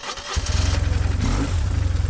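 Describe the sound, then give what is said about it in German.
A BMW R1150R motorcycle engine, 1150 cc and 86 hp, catching and settling into a loud, steady, throbbing idle of even low pulses. “Das ist eine BMW R1150R. Die fährt auf zwei Rädern und hat 86 PS und 1150 Kubikzentimeter.”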